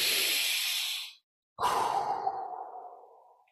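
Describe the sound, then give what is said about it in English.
A single deep breath is taken in a guided relaxation exercise: one long hissing inhale, a short silent hold, then a slow, sighing exhale that gradually fades away. “Take a deep breath with me right now.”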